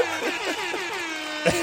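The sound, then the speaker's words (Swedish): An air horn honk sound effect goes off during a radio quiz segment, a bright, buzzy tone with wavering harmonics that carries on steadily and ends with a short, louder burst. “Jag vill ha prodden tuta med det!”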